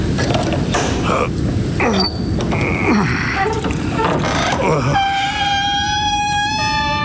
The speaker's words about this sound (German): dann wird es dir ja nichts ausmachen, mir das Tor zu öffnen, damit ich in den Hof reiten kann.